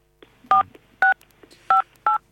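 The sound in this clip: Four short touch-tone beeps sound over a telephone line as a call signal, each a crisp two-tone chirp, spaced unevenly and heard alone.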